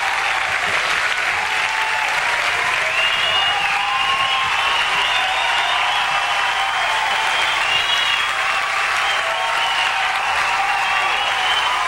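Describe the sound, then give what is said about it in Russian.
An audience applauds to welcome a performer, with dense, steady clapping that holds at an even, fairly loud level for the whole stretch. “Put your hands together and welcome”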